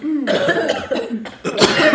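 Harsh coughing from too much smoke comes in a few loud, rough bursts close together, with short breaths between them.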